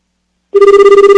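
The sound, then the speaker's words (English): A telephone rings on an overseas call. It starts after a short silence as a loud, steady electronic tone with a fast, even warble, and no voices are heard. “Sometimes you should hit a pound sign when dialing overseas, sometimes not. Let's try this.”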